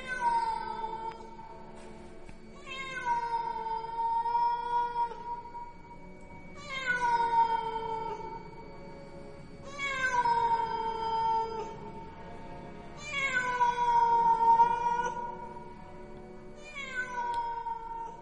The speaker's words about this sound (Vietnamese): Xen lẫn trong không gian đó, một tiếng con mèo hoang ở đâu kêu lên những tiếng đến ghê rợn.